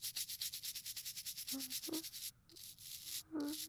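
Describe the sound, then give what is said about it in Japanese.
Soft, rapid rubbing of something being polished clean, made up of many quick rhythmic strokes. The strokes pause briefly partway through and then resume. “きれいきれいに磨いてあげるから。”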